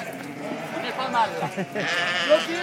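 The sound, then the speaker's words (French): Lambs and ewes bleating and calling to each other in a spring flock of about 250 ewes on a farm, with short, wavering bleats scattered under a person talking. “c'est les petits agneaux là qui connaissent pas encore Et c'est les mamans aussi qui cherchent leur agneau”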